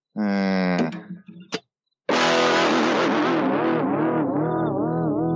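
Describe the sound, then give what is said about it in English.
A car speeds down a street with a distorted, wavering engine roar. A short revving burst cuts off, and after a brief silence a longer, sustained growl follows. “See that drunk girl speeding down the street?”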